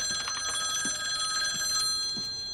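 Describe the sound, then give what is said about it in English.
A telephone rings in a home with a steady, bright, trilling ring that holds high, even tones and stays fairly loud throughout, with no talk. “Later, a phone rings. Mama, you want me to get that?”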